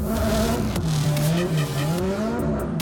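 Tyres squealing as a car drifts on a drift course, with a loud sustained screech whose pitch wavers up and down over a steady engine roar.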